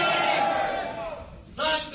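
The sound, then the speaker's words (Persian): Spectators at a humanoid robot fight cheer in a loud, dense roar that dips briefly and then swells again near the end. “صدای برخورد فلز با فلز، تشویق تماشاگران و مبارزه‌ای که این بار نه میان انسان‌ها بلکه میان ربات‌های انسان‌نما جریان دارد.”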